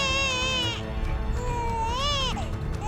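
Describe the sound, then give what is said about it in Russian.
A baby cries shrilly in a room, giving two long, high wailing cries with a wavering pitch, fairly faint over a low background hum. “и комнату наполнил пронзительный детский плач.”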